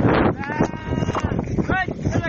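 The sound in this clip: Sheep bleat repeatedly while being driven to a lake for watering. The wavering, overlapping calls sit over a dense, rumbling background with steady noise throughout.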